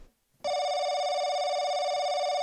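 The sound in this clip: A telephone rings for an incoming caller to a politics talk show. After a short silence, a loud, steady electronic ring tone with a buzzy, harmonic edge starts abruptly and holds without a break to the end.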